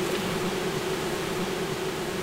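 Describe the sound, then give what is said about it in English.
Thousands of honeybees in a colony hidden behind a wall give off a steady, dense buzzing hum that holds an even loudness throughout. “Behind the wall, there's a colony of honeybees, numbering in the thousands.”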